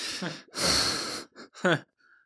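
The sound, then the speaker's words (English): A groan of dismay at depressing hockey news: a loud, breathy, drawn-out exhale with voiced moaning edges, then a shorter voiced burst and a faint tone trailing off at the end. “That was a real groan, folks.”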